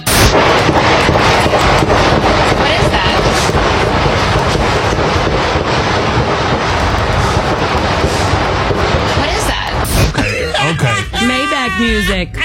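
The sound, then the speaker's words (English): Dense, rapid gunfire fired near a reporter: sharp cracks pile up over continuous loud noise for about ten seconds, then a voice speaks briefly at the end. “If shots are fired in your proximity, this is what you don't do.”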